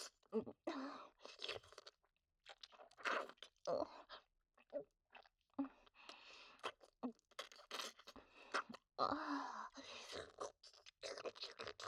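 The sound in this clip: Crisp crunching of food being bitten and chewed repeats in many irregular bursts, faint and close, with no talking over it.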